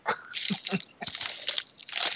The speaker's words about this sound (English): I love the ice sound. They other podcasts don't give you that. That's that ASMR. It's ASMR.